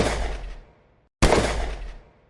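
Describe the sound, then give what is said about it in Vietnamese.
Gunshots ring out through a hotel hallway, fired while running: two loud, sharp blasts, each trailing off in a long, decaying echo, with a brief silence between them. “Tiếng súng lớn tới mức vang khắp hành lang, đinh tai nhức óc”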